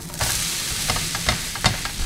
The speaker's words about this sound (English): So I just flip the dosa, and the vegetables are underneath.